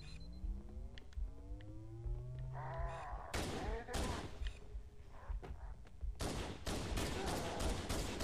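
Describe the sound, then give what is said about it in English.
Gunfire in a shooter video game with rockets, starting as sparse sharp bursts and then breaking into a rapid cluster of shots near the end, after a stretch of warbling, tonal game sounds. “I'm getting shot from in front and behind.”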